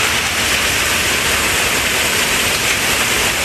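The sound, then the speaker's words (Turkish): Heavy rain and wind during a severe hailstorm in Tarragona, Spain, make a dense, loud, unbroken hiss that stays even throughout, with no voices. “İspanya'nın Tarragona kentinde şiddetli bir dolu fırtınası etkili oldu. Sağanak ve rüzgar birbirini izledi.”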